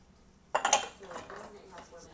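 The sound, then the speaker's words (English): Glass clinking among dishes: a bright, sharp clatter of a few quick clinks, then softer rattling of crockery. “Oh, I got a glass I missed.”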